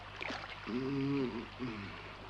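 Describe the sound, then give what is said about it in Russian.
A boat rowed with oars: faint watery wash with two short, tonal creaks, a longer one followed by a shorter one, over a low steady hum. “Филипп начинает грести.”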